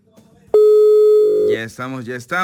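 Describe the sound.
Telephone line ringing after dialing: one loud, steady mid-pitched ring tone lasting about a second, after a few faint clicks. Voices then start talking as the tone ends and continue over the line.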